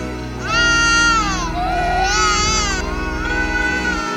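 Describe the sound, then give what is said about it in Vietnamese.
An infant cries loudly and without a break, drawn-out wails whose pitch bends up and down, with a few fresh breaths of crying across the stretch. “con khóc kìa em. Sao con khóc quá vậy em?”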